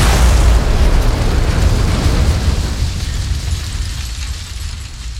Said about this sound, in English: in the time it took that thought to get from my head to my feet, the bomb went off.